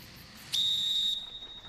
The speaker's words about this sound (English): He takes out a whistle.